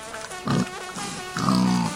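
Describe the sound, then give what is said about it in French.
Two low grunts from a wild boar charging in the countryside, each a short rough burst, the second louder and longer than the first. “il y a un sanglier qui me fonce dessus. Va-t'en, sanglier.”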